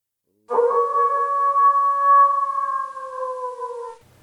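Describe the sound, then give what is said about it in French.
A single long howl in the mountains, a sustained steady tone that starts after a moment of silence and holds level for about three and a half seconds before dipping slightly and fading out. “Puis, ce fut un hurlement dans la montagne.”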